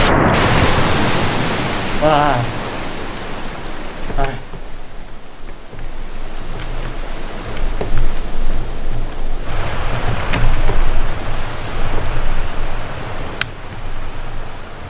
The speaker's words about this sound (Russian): Мне уже страшно от этого звука воды.